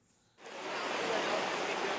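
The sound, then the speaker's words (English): Heavy rain pours down during floods near Bangkok, a few kilometres from the international airport. A brief quieter moment gives way to a dense, steady roaring hiss that holds at full strength to the end. “Just a few kilometres from Bangkok's international airport, the downpour continues.”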